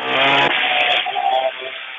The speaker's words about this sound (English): Is that chainsaw still going?